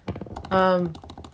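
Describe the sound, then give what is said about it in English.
Rapid clicking of typing on a computer keyboard, with quick, even keystrokes, is briefly overlapped partway through by a short voiced sound from a person. “I can hear you typing.”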